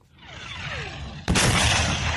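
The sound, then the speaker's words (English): Artillery fire from tanks: a whistling tone slides down in pitch, then a sudden loud blast breaks in and carries on as a heavy, rumbling roar. “As artillery rounds rain down from Russian tanks, a soldier's head peers out from a trench”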